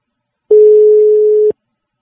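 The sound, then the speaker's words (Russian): Telephone ringback tone on a call placed from an L-Smart phone: one steady, mid-pitched tone lasting about a second, starting and stopping abruptly, alone with no talk. “Как вы слышите, пошел звонок.”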